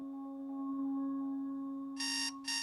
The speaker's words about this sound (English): Lying in bed alone and already awake, Nolan switches off his alarm.